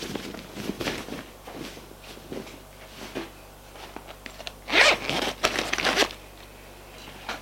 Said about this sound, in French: Vite, il se déshabille.